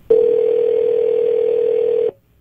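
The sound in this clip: Telephone dial tone heard while placing a prank call: a steady, unbroken mid-pitched hum holds for about two seconds, then cuts off abruptly.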